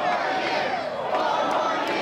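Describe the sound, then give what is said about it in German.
Thousands of demonstrators supporting Donald Trump cheer and shout at a protest, a dense, continuous crowd roar that stays loud and steady throughout. “Vor tausenden Demonstranten wird Donald Trump zum Gewinner der Wahl erklärt. Die Menge jubelt und wünscht sich 4 weitere Jahre.”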